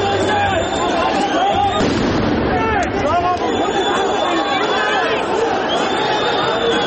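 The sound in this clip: Police fire tear gas shots at protesters during clashes in Yerevan: a few sharp bangs cut through loud, continuous crowd noise with shouting and high whistling tones.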